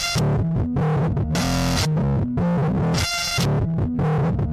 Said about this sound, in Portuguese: Então ela vai colocar distorções, barulhos, né? Interferências durante...